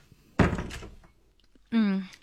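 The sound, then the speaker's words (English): A door swings shut with a solid thunk and a brief rattle, followed after a short pause by a voice speaking. “Must I close the door? Please.”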